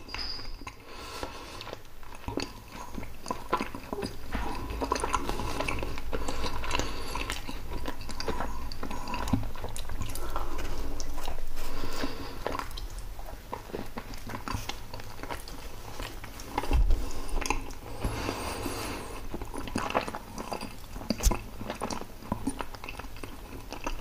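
Chewing and biting of pizza, with crunchy mouth noises that repeat many times over a steady, fairly loud stretch and no talking.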